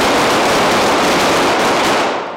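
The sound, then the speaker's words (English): Gunfire from police officers firing weapons during a simulated gunfight on a department shooting range: a loud, dense, continuous barrage with shots blurring together and no gaps, trailing off slightly at the end. “It's a simulated gunfight. They empty their clips, reload, and fire again.”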